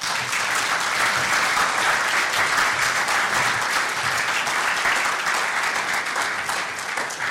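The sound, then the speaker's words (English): Sustained audience applause at the Alliance Party Conference welcoming a Minister of State to the stage, a dense, even wash of clapping that stays loud throughout. “I ask you to join me in giving a very warm welcome to Minister of State Brian Hayes TD.”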